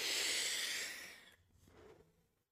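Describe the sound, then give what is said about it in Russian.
E-cigarette vapour is inhaled and exhaled: a long, soft, airy hiss drawn in, then a fainter breathy release trailing off into quiet. “Простите, можно вейпа покурю?”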